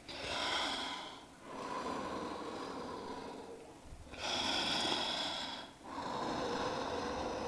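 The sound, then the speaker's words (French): Slow, echoing breathing, faint and drawn out. It comes in a few long, airy hissing phases, each separated by a brief pause. “Le souffle est beaucoup trop lent pour être celui de Dana hystérique. J'en conviens. Et vu comme ça résonne...”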